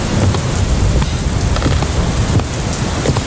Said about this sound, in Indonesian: Sepertinya kita harus bersiap, Bu. Kenapa, Pak? Hujan semakin deras.